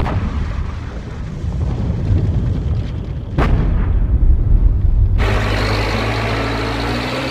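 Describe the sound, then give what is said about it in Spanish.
A rock-blasting explosion at the Alumbrera open-pit mine: one sharp, loud crack cuts through a low rumble, a deep roar follows, then a steady broad rushing noise takes over. “En Alumbrera explotan diariamente 300 toneladas de roca.”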